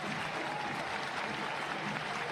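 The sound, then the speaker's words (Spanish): Stadium crowd applauding a Colombian footballer as he is substituted off the pitch after a head collision: a steady, dense wash of clapping and crowd noise that runs throughout without clear breaks. “La ovación para el colombiano.”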